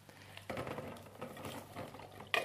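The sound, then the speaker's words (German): Canned corn and kidney beans being drained, a steady patter and splash of liquid that starts after a quiet moment and runs on, ending with a short sharp knock. “ich muss noch den Mais und die Kidneybohnen abgießen. Das mache ich jetzt ja, mal.”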